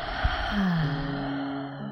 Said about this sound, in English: Take one more breath. Exhale